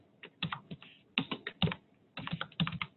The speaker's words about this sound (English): So I'm going to type in my name, I'm going to type in my professor's name,